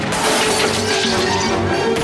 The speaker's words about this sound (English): Glass shatters like rain as they run for cover.